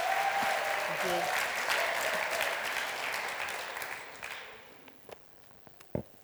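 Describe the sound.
Warm audience applause welcoming a speaker at a Teen Challenge gathering, with dense, steady clapping that tapers off after about four seconds, leaving a few scattered claps and thumps.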